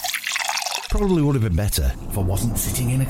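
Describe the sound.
A drink is poured into a glass at a barbecue, heard as a short liquid trickle lasting under a second. A voice then starts speaking and continues to the end.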